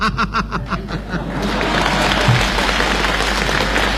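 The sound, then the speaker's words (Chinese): Audience applause that swells into dense, steady clapping after a short stretch of laughter-like voices at the start, continuing loudly to the end. “大家都着急了，只给您鼓掌。”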